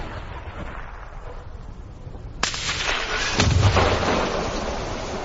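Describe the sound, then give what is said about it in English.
Grenade blasts ring out in frontline combat footage between Ukrainian and Russian forces: two sharp explosive cracks over a noisy background, the second followed by a heavy, rumbling roar that slowly fades. “And he got hit by something. What was that, a grenade? A grenade launcher?”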